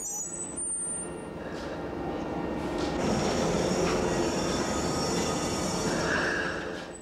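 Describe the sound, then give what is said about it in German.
A light rail train brakes to a stop as it pulls into a station, with a steady, loud rolling rumble under high, thin wheel squeals that continue throughout. “Beim Einfahren in einen Bahnhof bremst die Stadtbahn nun bis zum Stillstand ab.”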